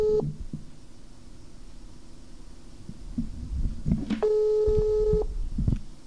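A telephone ringback tone sounds after a number is dialed: a clipped burst at the start, then one steady, mid-pitched electronic ring of about a second, over a low, muffled background rumble with no talk.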